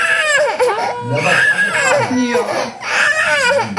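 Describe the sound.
A three-year-old child cries in loud, continuous wailing sobs whose pitch swells and falls, with short catches of breath between the cries.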